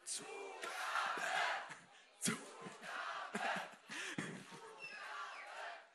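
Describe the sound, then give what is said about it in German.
A concert crowd shouts 'Zugabe' to call for an encore, repeated rhythmic bursts of massed voices at a fairly faint level, with short gaps between the chants. “Könnt ihr alle nochmal eine Zugabe geben? Nochmal eine Zugabe, dann hört sie es.”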